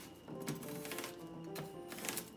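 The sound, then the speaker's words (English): Knife chopping an onion, a few sharp, clacking cuts at a loose, steady rhythm, fairly faint and with no talk. “And then what you do is you chop down like that.”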